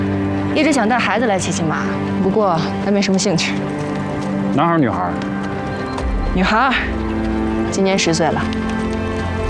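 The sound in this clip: A ridden horse's hooves clip-clop in a steady, fairly loud rhythm throughout, with voices sounding over the hoofbeats.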